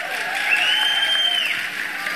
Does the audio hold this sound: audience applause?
yes